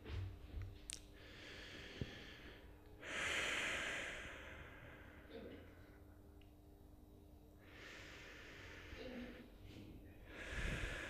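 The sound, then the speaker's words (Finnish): Slow, deep breaths from a breathing demonstration: a few faint, airy hisses that swell and fade at an unhurried pace, separated by quiet gaps. “Hengitä, mutta vielä tarkemmin. No niin, hengitään syvään.”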